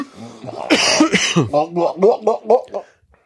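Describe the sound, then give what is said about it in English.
Coughing from a stout drinker in a taproom whose sip went down the wrong pipe: a few harsh, loud bursts, then a rhythmic run of short voiced spluttering pulses that taper away. “He's inhaling it. That's wrong pipe. I thought you were an experienced stout drinker.”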